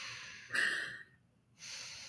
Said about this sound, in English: I'm just going to take a big deep breath.